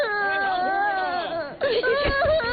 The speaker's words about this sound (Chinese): 别哭了，你要再哭娘就不要你